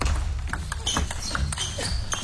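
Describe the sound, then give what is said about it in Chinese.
A table tennis ball clicks lightly on the table as Wang Chuqin serves at 10-10 in the second game, a few sharp, bright taps over faint background noise. “王楚钦发球，第二局10-10，”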